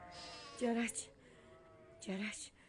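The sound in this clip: Lambs bleat in a flock, giving two wavering, nasal calls about half a second each, separated by a quieter stretch of low background sound.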